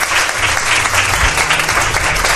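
Loud applause from an audience welcoming a guest: dense, vigorous clapping at a constant level throughout.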